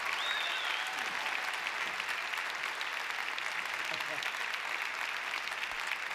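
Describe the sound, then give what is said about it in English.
Audience applause welcoming a performer on stage: a steady, dense wash of clapping that holds throughout, with faint voices mixed in. “Have the folks give a big hand now for Mr. Robert Earl Keene.”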